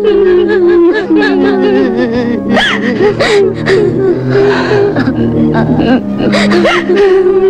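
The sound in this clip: A girl cries in wavering, high-pitched whimpering sobs broken by sharp gasps and catches of breath, loud and continuous throughout.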